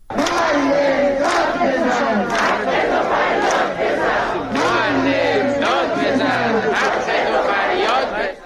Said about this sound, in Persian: در اینجا اگر اجازه بدید یک سری بزنیم به بخشی از اعتراض هایی که در تبریز بوده و بشنویم صدای معترضان در تبریز رو.